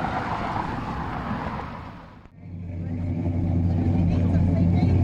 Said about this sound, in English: That sound is a car that Chris's aunt and uncle own. It's an Oldsmobile.